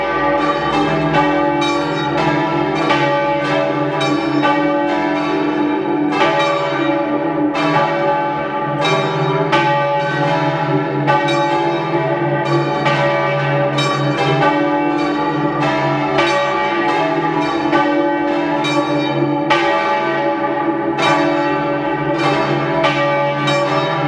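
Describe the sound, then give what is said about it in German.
Parish church bells in Sarnthein, South Tyrol, ringing at noon. Several bells ring in a continuous, overlapping peal of many loud strikes that ring on without pause throughout. “Es ist 12 Uhr. Sie hören die Glocken der Pfarrkirche Maria Himmelfahrt in Sarntein in Südtirol.”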